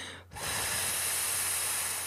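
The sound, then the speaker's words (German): A long hissing 'F' exhale pushed through the lips in a breath-lengthening exercise, after an inhale through the nose: a loud, steady, airy hiss that starts after a brief pause and continues unbroken for nearly two seconds. “Einatmen durch die Nase, F durch die Lippen aus.”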